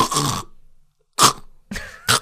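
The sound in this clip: A voice imitates irregular, throaty snoring with harsh, noisy snorts. One long snort comes first, then a silent pause, then three shorter bursts close together.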